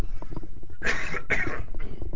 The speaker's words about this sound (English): I'm going to take the headphones off and cough.